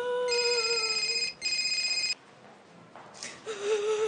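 A telephone rings with a loud electronic tone in two bursts, split by a short gap. A quieter stretch follows, then another ring begins just before the end.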